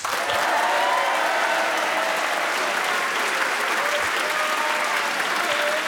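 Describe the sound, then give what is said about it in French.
Applause and encouragement from a large audience greeting two young participants, a steady, dense clapping that stays even and unbroken throughout. “De beaux encouragements de notre public nombreux.”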